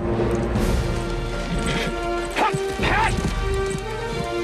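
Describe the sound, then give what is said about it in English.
Horse hooves as a knight rides up a hill at sunrise, a few dull thudding hoof impacts under sustained tonal music. “As the others watch, Bowen rides up to the hilltop. With the sun rising behind them, he and his horse are silhouetted. The horse rears up on its hind legs”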